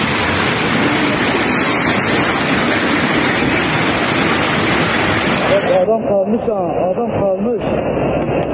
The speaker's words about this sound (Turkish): Azgın sular motosikletleri birer birer sürükledi. Kuryeler durdurmaya çalıştı ama akıntının gücüne engel olamadı. Motorlar su götürüyor.